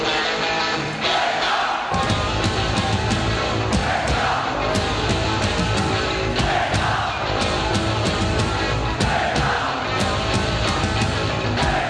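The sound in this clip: A live 1988 concert crowd chanting in unison before a band's song: a dense, steady roar of many voices that holds at an even loudness throughout.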